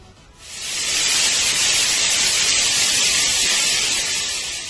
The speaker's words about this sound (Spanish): les fue presentado un televisor en el que solo se veía ruido blanco.